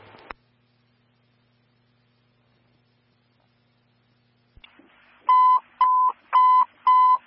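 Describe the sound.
Fire department dispatch alert tone: four loud, evenly spaced, steady mid-pitched beeps at the end, after a short click at the start and a long near-silent stretch.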